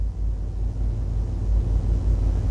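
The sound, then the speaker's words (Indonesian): Busy road traffic rumbles at a four-way traffic-light intersection in Banjarmasin as a continuous, fairly loud, low drone with no distinct single vehicles standing out. “Lalu lintas sepanjang kawasan ini terlihat cukup ramai lancar dari berbagai arahnya”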